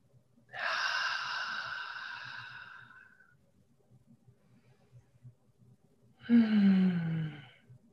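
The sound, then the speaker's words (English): Two deep breaths, each a long, soft, airy rush of air, separated by a quiet pause. The second breath is slightly louder and shorter. “Let's take two nice deep breaths, please.”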